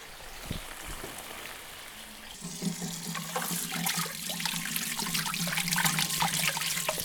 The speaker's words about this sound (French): Je fais couler de l'eau froide et je vais égoutter tout de suite, comme des pâtes.